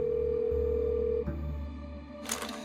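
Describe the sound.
A telephone call ringing tone sounds as a steady mid-pitched tone for just over a second, then cuts off. A low hum remains, followed by a brief burst of noise.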